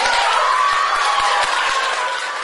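City hall staff clap to congratulate the mayor as he arrives at work, lining the staircase. The clapping is dense and steady, with a sustained musical tone running underneath and the clapping thinning slightly near the end.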